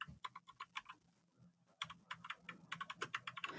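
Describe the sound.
Fingers type on a computer keyboard to run a Google search: quick bursts of many light, clicky keystrokes, a short pause, then a faster flurry of keys, all fairly quiet.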